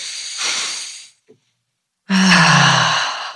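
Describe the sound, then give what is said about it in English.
Deep breaths taken together: a long, airy rush of breath, a brief silence, then a louder, breathy sigh-like release that fades out slowly. “Shall we take a deep breath? Let's take a deep breath.”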